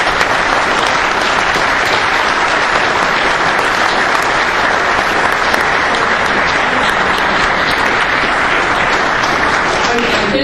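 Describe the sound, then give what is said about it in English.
Sustained audience applause at a presentation event, dense and steady clapping that stays loud and even for about ten seconds without a break. “Please give Jack a round of applause.”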